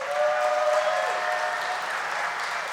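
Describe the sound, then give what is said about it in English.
A church audience at Alpine Church applauds the worship team, a steady, fairly soft wash of clapping that stays even and then eases slightly toward the end. “I'm just so proud of our worship team. Would you guys give them a hand?”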